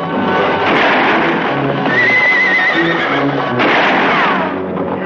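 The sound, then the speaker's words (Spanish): Horses gallop hard as mounted riders flee pursuing troops in a Western set in the Mexican Revolution, a loud, dense rush of hoofbeats and movement with a drawn-out whinny rising above it midway. “Ambos americanos huyen de las tropas imperiales a galope tendido.”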